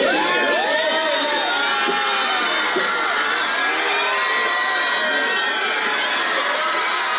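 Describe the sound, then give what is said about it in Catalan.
A crowd cheers Brad Pitt outside the Hotel Maria Cristina in San Sebastián during the film festival. Loud, continuous shrieks, whoops and high excited shouts overlap without a break for the whole stretch. “Així han rebut a Brad Pitt davant de l'hotel Maria Cristina, on ha arribat abans del que estava previst inicialment.”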